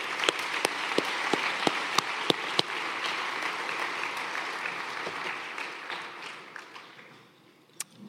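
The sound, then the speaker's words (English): Audience applause for award winners at the 2023 Canadian Disability Hall of Fame induction ceremony, a steady dense clapping that thins out near the end to a few scattered claps. “So again, let's hear it for all three of our winners.”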